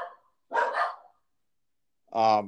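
Dogs barking: a few short, rough barks and yips separated by silence, the last one fuller and more tonal.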